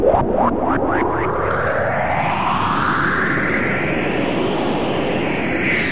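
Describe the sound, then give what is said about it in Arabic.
A cartoon-style whoosh plays as a flying magic carpet takes off. A quick run of springy, boing-like chirps opens it, then a loud, continuous roaring rush climbs steadily in pitch. “هيا اركب البساط لننطلق. حسناً، إذن هيا يا بساطي إلى جيزان.”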